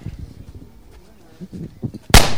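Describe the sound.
A firecracker lit at the tip goes off in one sharp, loud bang near the end, after a stretch of people talking and low scuffling noises.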